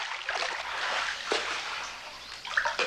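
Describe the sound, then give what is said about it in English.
Someone swims away in a radio drama scene, with faint water splashing and sloshing. Soft, continuous swishes carry through, with a few brighter splashes toward the end and no voices. “He swims away from her.”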